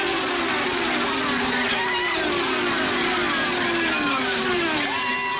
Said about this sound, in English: Despite the cancellation of Indy and NASCAR auto races, one did take place at Watkins Glen International in New York. Going up the hill, and he's got a nice little gap on Rosenquist already. See these cars drafting,